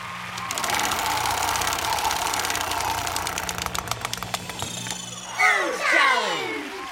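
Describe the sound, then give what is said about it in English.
A prize wheel spun in a food-challenge game: a low hum sits under rapid ratcheting clicks that gradually slow and spread apart until the wheel stops, followed by a few louder gliding tones. “give the wheel a spin”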